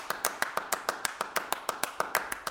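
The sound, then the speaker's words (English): Hand claps from two people repeating one little rhythm while one performer gradually drifts out of sync with the other; many crisp, fairly faint claps in a steady pulse. “And when you hear it, it's just one little rhythm, clapped by 2 people, and then one person moves out of sync with the other,”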